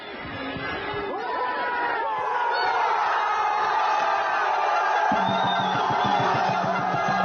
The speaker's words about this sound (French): Chant, cornes de brume et même fumigène comme tout, dans tous les plus grands stades de foot. On se croirait sur un terrain de Ligue 1. Et alors quand il y a but pour l'équipe qu'ils ont décidé de supporter, ça devient juste de la folie.